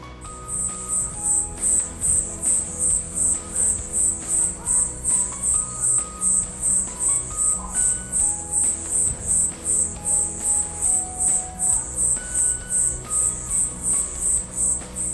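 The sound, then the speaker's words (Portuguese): A single cricket chirps on a residential street, giving many short, high, shrill pulses in a quick, highly regular rhythm that stays steady and clear against quiet background hum. “Ouçam a gravação deste grilo cantor aqui da minha rua.”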